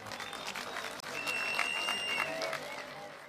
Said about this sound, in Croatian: I zato dajemo jedan veliki aplauz za sve ovo što je bilo do sad.